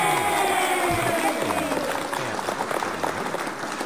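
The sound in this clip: Audience clapping as a dense, steady wash of applause, with voices talking over it throughout.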